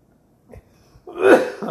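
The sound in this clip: A person clears their throat and coughs, a short, harsh, rasping burst that follows a couple of faint clicks and small throat sounds.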